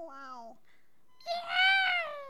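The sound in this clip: Two cat meows from a cat litter commercial: a short, mid-pitched harmonic call, then after a pause a longer, louder and higher meow that holds to the end.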